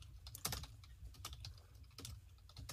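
Quiet, rapid typing on a computer keyboard during a Roblox game: many irregular key clicks with a few sharper taps, alone with no talk.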